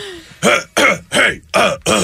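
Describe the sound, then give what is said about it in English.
A man clears his throat loudly in five forceful, raspy bursts, evenly spaced in a quick rhythm with short silent gaps between them. “That's how Ja Rule clears his throat.”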